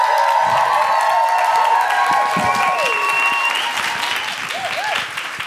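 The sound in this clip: Audience applause as a comedian takes the stage: a dense, steady wash of many hands clapping with some crowd noise, easing slightly toward the end.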